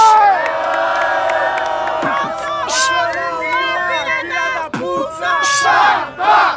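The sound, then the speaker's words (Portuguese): Crowd cheering, whooping and shouting at a rap battle: a loud, continuous roar of many voices with sharp individual yells rising above it. The noise dips briefly twice near the end. “Muito barulho pra batalha!”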